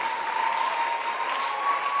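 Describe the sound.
An audience clapping at a church end-of-fast salvation rally: a brief, even, continuous patter of many hands, steady in level and without breaks.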